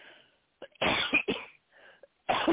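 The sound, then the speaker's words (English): A person gives a few harsh, raspy coughs in short bursts separated by brief pauses. “excuse me, am I coughing?”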